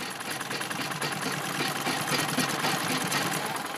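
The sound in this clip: Sewing machine stitching a colorful dress as a young woman works in a remote village in northeastern Nigeria, a steady, rapid mechanical whir and clatter running loud and unbroken throughout.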